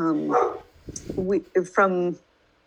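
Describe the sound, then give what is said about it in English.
Dogs bark a few times in quick succession, loud yips and barks of varying pitch, mixed with a voice. “the dogs are back”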